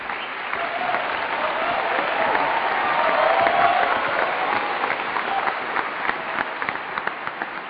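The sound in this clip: Applause from an audience for a priest hosting the event: dense, steady clapping that swells to a peak midway, then eases slightly toward the end.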